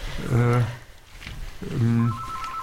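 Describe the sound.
A telephone rings with an incoming listener call, sounding two loud, tonal ring bursts separated by a short, quieter gap.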